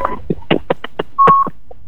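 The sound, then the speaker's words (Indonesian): Telephone dialing tones sound as a call is connected: a quick, uneven run of short electronic beeps, then one longer steady tone, then a couple of faint final blips. “sudah ada Bang Wasu yang bergabung nih, langsung saja kita sambungkan”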